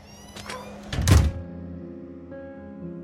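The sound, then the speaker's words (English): A front door closing with a single dull, heavy thunk midway through, short and fairly loud against a faint steady tonal background. “She-Ra closes the front door”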